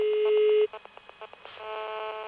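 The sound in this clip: Electronic tones from a telephone answering machine starting voicemail playback: a long, steady beep, then a run of short, quick button-like beeps, then a sustained multi-tone sound. No voices are heard.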